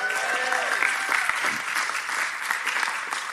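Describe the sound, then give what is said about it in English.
Applause from a church audience for the worship team: steady, dense clapping that holds at an even level throughout, with a little crowd noise mixed in. “Give it up for the worship team today.”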